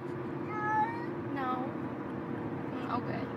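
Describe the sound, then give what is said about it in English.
A cat meows about three times, short drawn-out cries with a rising and falling tone, over a steady low hum. “It's a cat that talks?”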